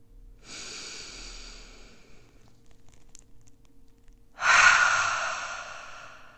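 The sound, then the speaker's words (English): A deep breath in followed by a full exhale during a guided meditation. A soft, airy inhale comes first, and after a short pause a louder, rushing exhale tapers off gradually. “I'm going to ask you to take a big breath in and exhale all the way.”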